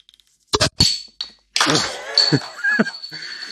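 An opened Corona beer bottle knocks against a lip with a few sharp, dull thunks, followed by a longer, rough, noisy stretch.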